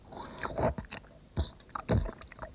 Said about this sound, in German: Wie du das Fett vom Schweinebauch abschneidest und das wie eine Fuhre Heu auf die Gabel spießt, das Ganze in den Mund schiebst und schmatzend zerkaust.